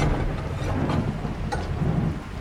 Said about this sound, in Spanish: Parece que se va a poner a llover más fuerte. Hace tiempo que no teníamos una lluvia así.